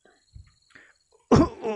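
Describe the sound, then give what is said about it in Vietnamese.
An old man coughing up blood lets out one harsh, loud cough near the end, preceded by a few faint breathy sounds. “Liên tục ho ra máu, lão giả gian lan nặn ra từng từ.”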